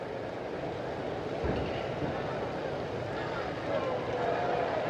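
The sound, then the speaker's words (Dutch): The crowd on St. Peter's Square reacts as Pope Leo XIV arrives, a sustained broad wash of many voices that holds steady throughout with a few slight swells. “En u hoort het aan de reactie. Daar komt paus Leo XIV.”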